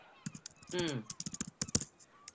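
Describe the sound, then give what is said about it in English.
Aggressive typing on a computer keyboard: many sharp, irregular key clicks, with a brief voice partway through. “Type less aggressively, whoever was doing that.”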